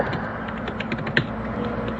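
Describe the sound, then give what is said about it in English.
Furious typing on a computer keyboard picked up by a built-in microphone: a rapid, continuous run of small clicks over a low background hum, with one sharper keystroke near the middle. “wow, someone is typing furiously. I forgot I'm using my built-in mic.”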